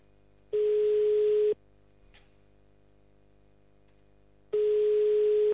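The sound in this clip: Ringback tone of an outgoing telephone call: two steady, buzzing one-second tones, separated by about three seconds of near silence with a faint brief click between them, over a low constant hum.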